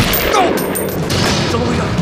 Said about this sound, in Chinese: 怎么回事？谁开枪？